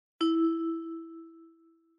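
A single signal tone sounds before answering in a German listening exercise: one clear, bell-like ding that strikes once and rings on, slowly fading over about two seconds, alone.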